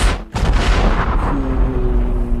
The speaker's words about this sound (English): dropping bombs on them